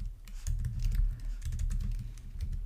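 Fingers type a short line of text on a computer keyboard, a quick run of soft, uneven keystroke clicks with brief pauses between bursts.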